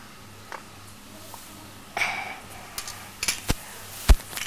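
Spoons clinking as they are handled and gathered together: a few scattered sharp metallic clicks and taps, faint at first and then clustering into brighter clinks toward the end.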